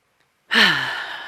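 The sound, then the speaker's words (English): A single deep breath is released as a long, audible sigh during a guided meditation retreat. It begins abruptly after silence and fades slowly. “Let's take a breath.”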